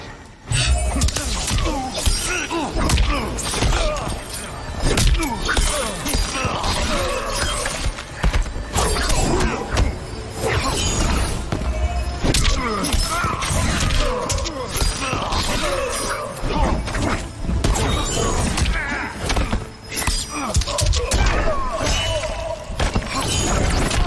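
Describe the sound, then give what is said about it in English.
Fight sounds from the Mortal Kombat video game: a loud, unbroken barrage of crashing, shattering and thudding impacts runs the full length with barely a pause, dense and heavy throughout. “Any advice before I battle my revenant? Be ready to face your demons. I am prepared, Scorpion. Round one, fight!”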